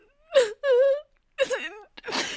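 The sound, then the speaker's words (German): Person crying and sobbing in a German radio drama, with a few drawn-out, wavering wails broken by short gasps and silent pauses between them. “Hör auf zu heulen. Ich verstehe kein Wort.”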